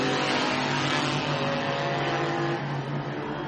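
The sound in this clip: A race car engine held on the pit lane speed limiter, a loud, dense, buzzing drone that stays at a steady level and pitch throughout, with no talking.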